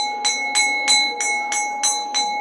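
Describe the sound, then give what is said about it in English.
A school bell rings in a fast, regular series of strikes over a sustained ringing tone. The pattern is evenly paced and continuous, with no voices. “the bell's ringing. Let's go to the class.”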